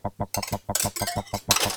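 Metallic clinks and rattles as a metal whisk attachment is handled and fitted into a cordless drill chuck in a ship's galley, a rapid, rhythmic series of taps broken by brighter bursts of jangling.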